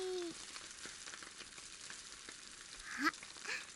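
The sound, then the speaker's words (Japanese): Meat seasoned with salt and pepper sizzles in a pan over low heat, a soft, steady frying hiss that runs without a break. “お肉の周り、いらん油がにじみ出てきたでしょ。”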